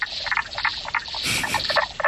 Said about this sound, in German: Ja, es ist eine Kröte, genauer gesagt die Knoblauchkröte.